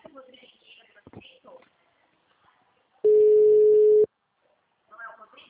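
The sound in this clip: On an outgoing telephone call, a single steady, mid-pitched ringing tone sounds for about a second, with people talking before and after it.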